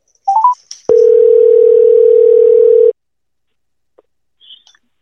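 A telephone call being placed: a few short, high dialing beeps, then one steady mid-pitched ringing tone lasting about two seconds, followed by near silence with faint brief blips.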